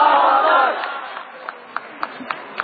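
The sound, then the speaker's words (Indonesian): A crowd shouts the takbir "Allahu Akbar" in unison at a religious lecture gathering. The loud, massed shout lasts under a second, then fades into a low murmur with a few short, sharp knocks. “kita sambut Ustaz Felix Yanuar Show dengan takbir Allahu Akbar”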